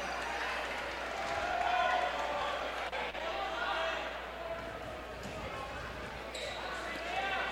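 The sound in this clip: A basketball bounces on the court before a free throw in a high school game, Kearney against Fort Osage. A few dull thuds sound under a murmuring crowd and a commentator talking.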